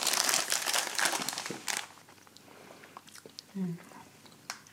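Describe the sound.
Gingerbread cookies being eaten: crisp chewing and crunching with crinkly bites, densest at first and then thinning to sparser, fainter crunches, with a voice briefly heard.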